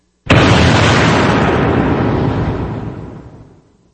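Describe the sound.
A nuclear bomb explosion sound effect: a single sudden, loud blast erupts and swells into a broad roaring rumble, then fades gradually over several seconds.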